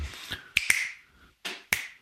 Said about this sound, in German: Ich tue noch ein bisschen so manchmal schnippen. Schnipp, ja.